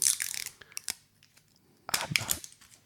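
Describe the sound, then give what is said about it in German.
Protective security film is peeled off product packaging, making crackly, crinkling plastic rustles in two bursts, with a quieter stretch of small scattered ticks between them. “ich mach erst jetzt die Sicherheitsfolie hier ab.”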